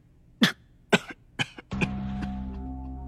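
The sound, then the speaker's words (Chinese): A frail, sickly man coughs in a handful of harsh, dry bursts spaced roughly half a second apart, with no talk. “那本就像个痨病鬼一样的唐枕已经率先捂着胸口去一边咳嗽了起来”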